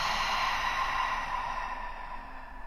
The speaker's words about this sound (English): Together, let's take a big breath in through our noses. And then open and exhale.